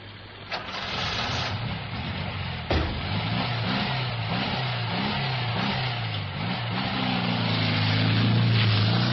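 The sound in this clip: A taxi driving away: a loud, steady engine drone with repeated rising rev sweeps as the car pulls off, the engine staying prominent throughout.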